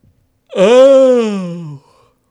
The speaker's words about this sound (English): Did you just yawn on him?